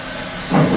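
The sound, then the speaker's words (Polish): Air hiss from an electric locomotive simulator as the pantograph is raised and the brakes are released: a steady low hiss that swells abruptly into a louder, fuller rushing burst halfway through. “Podnosimy pantograf. Odluźniamy hamulce. Czyli wszystko rusza.”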